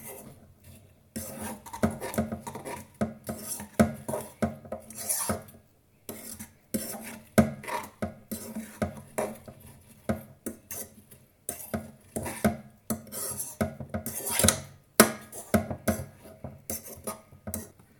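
Spoon stirring apples with sugar and cinnamon in a pot: many irregular scraping and scuffing strokes with light clinks, separated by short pauses. The sound is fairly faint throughout, with no talking.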